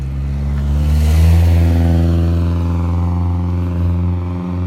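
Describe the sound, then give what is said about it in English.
A noisy motorcycle and a very noisy car pass on a street, heard while out walking: a loud, low engine drone that swells early and then slowly eases off. “You can tell I'm out walking. We have a noisy motorcycle and a very noisy car, so that's the world we live in.”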